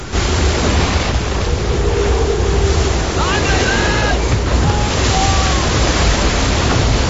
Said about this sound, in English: The ship is relentlessly battered by huge waves washing over the deck.